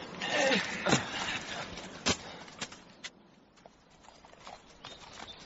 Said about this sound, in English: I will picket the horses over here.